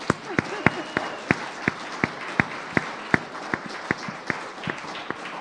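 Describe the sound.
Audience applause welcomes a speaker at a gathering, steady crowd clapping with sharp, evenly spaced louder claps standing out in a regular beat throughout.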